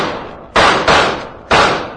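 Three sharp gunshots from a handgun in a radio drama, fired at Moriarty as he flees into the woods. Each bang starts abruptly and dies away quickly. The first two come close together and the third follows after a pause, with no voices.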